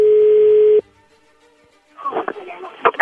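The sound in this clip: A steady telephone dial tone sounds loudly for under a second as a call is placed, then cuts off abruptly; after a short quiet gap, a voice begins talking.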